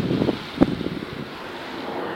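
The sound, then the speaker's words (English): Wind picks up outdoors on a dark evening street, buffeting the microphone in a low, muffled roar with a few gusty bumps early on, then settles into a steady rush. “As the wind kicks up,”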